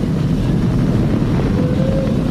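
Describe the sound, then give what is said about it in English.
A Falcon 9 rocket roars during launch and early ascent, a loud, steady, low rumbling roar that continues without a break and without any voices. “Falcon 9 and look at them go.”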